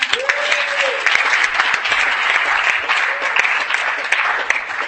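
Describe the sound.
Audience applause welcoming the next speaker at a sobriety meeting: steady, dense clapping from many hands that holds at an even level for about five seconds.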